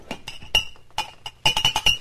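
Whiskey glasses clinking on a bar: a series of sharp, ringing glass clinks in an irregular rhythm, sparse at first and then bunched into a rapid cluster near the end.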